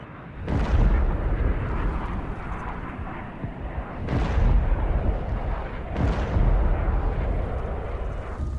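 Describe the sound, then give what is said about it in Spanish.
Bombs exploding outside the city of Hanoi, North Vietnam, during wartime air raids: three heavy, deep booms, each followed by a long rolling rumble, with no voices. “Y una vez más, las bombas caen fuera de la ciudad.”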